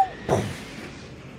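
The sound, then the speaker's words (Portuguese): A video game explosion: one short, punchy burst of noise that hits sharply and then fades into a low, dull rumble. “Explodiu.”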